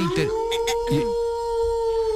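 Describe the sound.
A wolf howls in a long, steady, fairly high note that holds for about two seconds, with voices speaking briefly over its start. The howl is said to come from a zoo just across the way.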